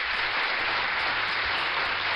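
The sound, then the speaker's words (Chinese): Steady audience applause for a child, a dense, even patter of many hands that holds at a moderate level throughout with no voices over it. “好，那我们要送个掌声给我们聪明的子清啊。”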